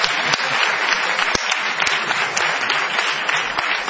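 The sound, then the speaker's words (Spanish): Audience applause for a guest, a loud, even wash of many hands clapping for four seconds, with a few sharp individual claps standing out above the steady roar. “Un aplauso para Tatiana.”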